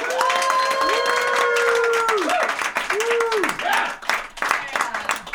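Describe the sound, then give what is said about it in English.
An audience applauds after a comedy set with a dense, steady patter of clapping. Voices whoop and call out over it, and the clapping thins somewhat toward the end. “Keep it going. Keep applauding.”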